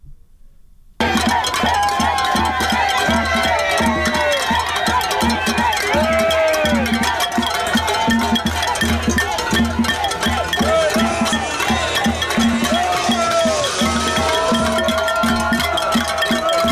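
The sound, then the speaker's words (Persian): Crowd of Fidel Castro's opponents celebrating in the streets of Miami after his death: dense, loud, continuous crowd noise with shouting voices and rhythmic clanking like cowbells, starting after a brief quiet moment. “صدای شادمانی مردم مخالفان فیدل کاسترو رو در میامی آمریکا میشنیدیم”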